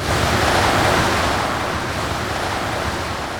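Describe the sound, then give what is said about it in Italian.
A huge blowing gust sweeping smog away, heard as a loud, continuous rush of air that stays strong throughout and eases only slightly after the first second. “io con il mio mega soffio dovrei riuscire a spazzare via lo smog verso le montagne!”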